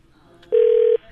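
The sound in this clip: A telephone rings with an incoming call to a public radio fund drive, a single steady mid-pitched tone lasting about half a second, with quiet before and after.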